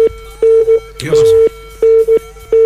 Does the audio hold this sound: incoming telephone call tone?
yes